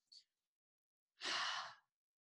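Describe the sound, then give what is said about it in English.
A deep breath demonstrated with air drawn in through the nose and released out the mouth, heard as a single short, breathy exhale about half a second long. “so we're breathing through our nose. Through my nose, bring it into my belly. And then as I'm exhaling, it's bringing up through my chest and then exhale out my mouth. So it sounds like this.”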